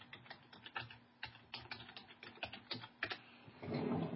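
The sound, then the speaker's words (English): Someone types a website address on a computer keyboard: many quick, irregular key taps in a clattering run, ending in a denser burst of key noise. “In fact, I'll type his website in the room.”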